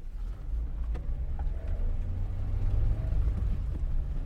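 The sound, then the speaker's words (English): A car engine rumbling as the car is put in gear and driven off onto the road, a low, steady drone that grows slightly stronger as it continues. “put it in gear, and hit the road.”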